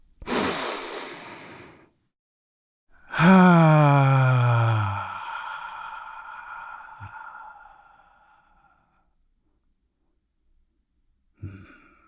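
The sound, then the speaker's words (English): A deep breath: a long, airy inhale, a short pause, then a long voiced exhale whose pitch slides downward and fades slowly. “let's take a deep breath.”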